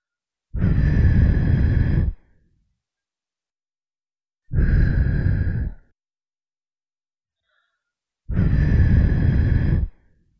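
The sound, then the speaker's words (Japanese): Soft, breathy puffs of air blown into an ear after ear cleaning: three separate blows, each about a second and a half long, with silence between them and no talk. “もうちょっとふうしてきれいにしてやるよ。”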